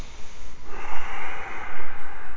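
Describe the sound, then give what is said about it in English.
Breathing in and out through the nose during a yoga class: a continuous, airy nasal rush that swells and eases in strength, with no voices. “In and out through your nose.”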